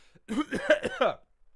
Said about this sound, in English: If you see a character on a television show coughing, like,